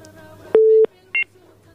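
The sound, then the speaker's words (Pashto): Telephone keypad dialing tones as a call is placed: one longer steady beep, then a shorter high double-pitched beep, over a faint background hum. “زه به اړیکه واخلم”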